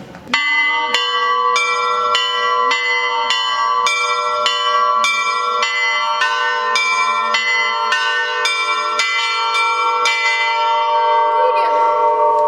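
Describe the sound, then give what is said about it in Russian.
Monastery church bells at the Iversky monastery on Valdai ring in many loud, rhythmic strikes that overlap in a rich, sustained peal. A voice briefly says a word near the start. “Мы слышим только звон колоколов.”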